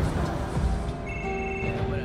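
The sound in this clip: A phone begins ringing about a second in, giving steady electronic tones over a low, rumbling outdoor background near an overpass where trucks pass.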